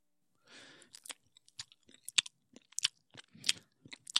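Chewing and biting while eating eggs: a quiet, irregular run of many soft crunches and wet smacks, each bite brief and separate, heard alone.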